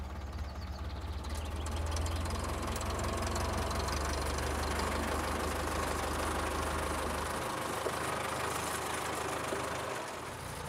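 A tractor engine runs with a loud, steady knocking rumble and a deep low drone that cuts out toward the end, while the broad mechanical clatter carries on.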